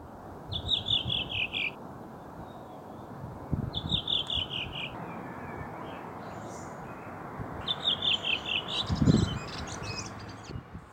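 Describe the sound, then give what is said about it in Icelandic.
A redwing thrush in Kópavogur, Iceland, sings three short, high phrases of rapid trilled notes separated by pauses, fairly faint over a low background rumble. “Á Kársnesi í Kópavogi samanstendur upphafstefið af 5 trillum sem lækka í tíðni með hverju atkvæði. Ég hér, syngur þrösturinn.”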